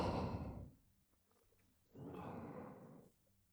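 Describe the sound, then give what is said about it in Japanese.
Slow guided breathing, with two long, airy breaths separated by a quiet pause of about a second. Both are soft, steady rushes of air with no talk over them. “ゆっくりと息を吸って吐いて”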